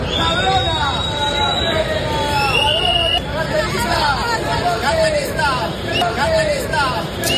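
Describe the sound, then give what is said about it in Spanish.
A crowd chases two pickpockets through a city square in Madrid, with loud continuous shouting and babble and shrill whistle blasts cutting through again and again. “Este es el sonido de un vídeo que está grabado en Sol, en Madrid. En él, dos carteristas pues son perseguidas por varios ciudadanos con silbatos”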